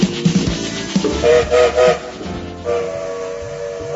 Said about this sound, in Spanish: El tren se pone en movimiento, subite